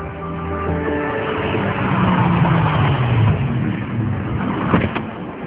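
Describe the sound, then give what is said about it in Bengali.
Car engine rumbles steadily as the car drives up and parks in front of a cemetery, with a low tone sliding downward midway and a brief louder knock near the end. “গাড়িতে ঘুরিয়ে গোরস্থানের ঠিক সামনেই park করা হল।”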